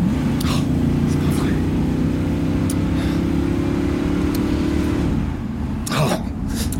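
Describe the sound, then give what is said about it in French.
Car driving fast in a February 1952 setting, its engine a steady low drone that holds loud and even for about five seconds before easing off, with faint breathy sounds on top. “Tu n'es pas obligé de rouler aussi vite”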